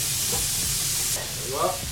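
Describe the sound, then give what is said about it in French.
Steady frying sizzle of meat searing untouched in a frying pan as its surface caramelizes, a continuous bright hiss at an even level with faint crackles. “Et là je vais la saisir dans une poêle magnifique. Je ne touche pas trop, je laisse caraméliser en surface.”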